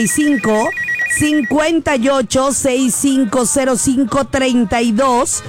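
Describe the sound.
A telephone rings on a radio call-in line: a brief electronic trilling ringtone near the start, heard beneath loud, continuous voices.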